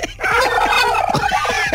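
A turkey gobbles in one long, loud, rapid warbling call that fills nearly the whole stretch, its rattling throaty pulses coming in a fast tremolo with no voices over it.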